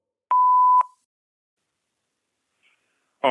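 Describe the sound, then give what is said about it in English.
A single steady electronic beep from a voicemail line, signalling the start of a caller's message. The mid-pitched tone holds for about half a second, then silence follows before a voice begins right at the end. “we have to go to the Beck line. We've got a special double voicemail.”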